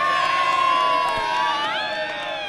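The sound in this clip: Loud crowd cheering and shouting for wrestler Roman Reigns at a record-sized wrestling event, a dense, sustained roar that holds steady throughout with no pause.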